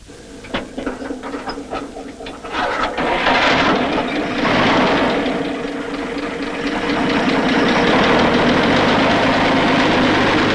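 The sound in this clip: A truck engine cranks with rapid, uneven pulses, then catches and settles into a loud, steady, rumbling idle with a continuous mechanical rattle.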